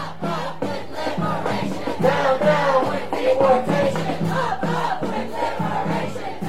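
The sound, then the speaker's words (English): Crowd of anti-ICE protesters chanting in steady rhythm while marching through Milwaukee streets from Cathedral Square Park to the immigration offices on the Lower East Side; many voices, loud and continuous, with repeated phrases. “That's the sound that could be heard throughout the streets as anti-ICE protesters marched from Cathedral Square Park to the U.S. Citizenship and Immigration offices located on the Lower East Side of Milwaukee.”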